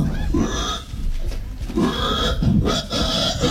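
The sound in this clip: A human voice imitates a pig, making a series of rough, low, guttural grunts and oinks in uneven bursts with short breaks between them.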